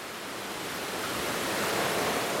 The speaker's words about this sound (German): Oh ja, jetzt sehe ich das. Die Schleusen sind geöffnet. Wassermarsch heißt es.